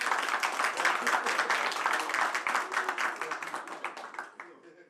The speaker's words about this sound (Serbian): Još jedan veliki aplauz, molim vas.